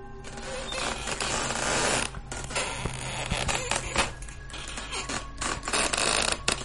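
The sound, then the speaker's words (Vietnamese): A wooden weaving loom in a village house clacks in a dense, busy clatter of sharp knocks. The mechanical noise keeps up steadily and fairly loudly throughout. “tiếng khung cửi ở gian bên kia bắt đầu vang lên to hơn, rõ hơn, đều đặn hơn.”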